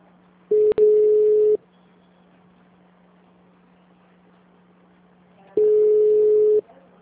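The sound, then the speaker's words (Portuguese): Telephone line tones while a call is transferred: two long, steady, mid-pitched tones, each about a second, separated by several seconds of quiet line hiss. A brief click breaks the first tone. “Guarde um instante, estamos transferindo a sua ligação.”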